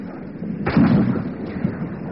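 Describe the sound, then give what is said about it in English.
A single rifle shot is fired as a warning over a fleeing man's head. It is a sharp, loud burst followed by a short rumbling decay that fades out. “Oh, oh, we shoot! Put one over his head, Corporal.”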